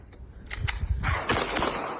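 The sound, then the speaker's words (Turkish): A pistol fired repeatedly into the air on a street at night, several sharp cracking bangs in quick succession over steady background noise. “sokakta yürüyen bir kişi tabancasını çıkarıp havaya peş peşe ateş açtı.”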